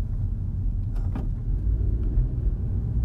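Low, steady engine rumble inside a car driving around Los Angeles, a dense deep drone holding even and loud throughout with no talk.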